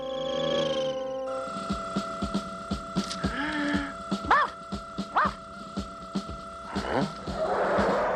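Odie the dog barks while chasing cars, giving a series of sharp, yappy barks at an uneven pace. A steady tonal hum from the cars runs underneath the barking.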